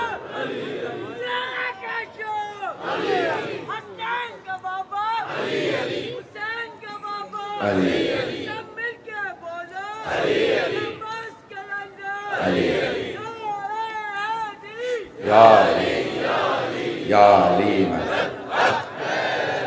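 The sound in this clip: A large crowd at a religious gathering chants slogans in loud, repeated rhythmic bursts of many voices shouting together, with short gaps between the outbursts.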